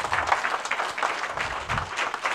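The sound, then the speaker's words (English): A church audience claps in praise, making a dense, steady patter of many hands that runs through the whole brief stretch. “If you receive that, give the Lord a hand clap of praise.”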